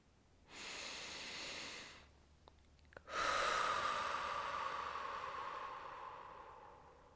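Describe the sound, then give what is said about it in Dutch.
Breathing in through the nose, then out through the mouth: a soft, hissing inhale, a short pause with faint clicks, then a longer, louder, airy exhale that slowly fades. No talking is heard. “ik adem in door de neus en ik adem uit door de mond”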